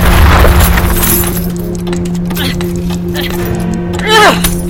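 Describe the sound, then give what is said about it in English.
Scaffolding collapses with a loud crash, followed by clattering, rattling debris and breaking noises, while a voice shouts over the din. “These scaffoldings are about to come down! It's coming down!”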